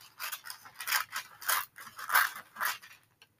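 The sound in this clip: Scissors snip through paper while homemade paper stickers are cut out, making a quick, uneven run of many crisp cuts and rustles, with no voices.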